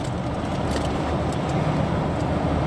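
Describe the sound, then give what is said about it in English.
Busy truck traffic rumbles past in a continuous, steady wash of road noise. It stays fairly even in level throughout, with no single vehicle standing out. “God, these fucking trucks are so busy.”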